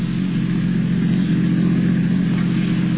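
A car engine hums as the vehicle is driven along. The drone is steady, low and mid-pitched, with a slight swell in the middle and no voices over it.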